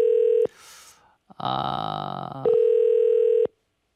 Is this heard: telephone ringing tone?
yes